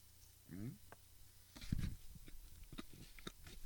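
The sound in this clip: A very old muesli bar found behind a couch is bitten and chewed: a few sharp, dry crunches, then softer, irregular chewing noises, quiet and close, with a brief voice sound just before.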